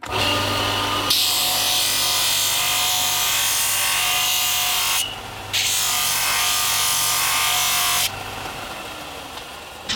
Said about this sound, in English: shape it up on this little linisher here. This is the linisher. Use all sorts of different kinds of sandpaper grit.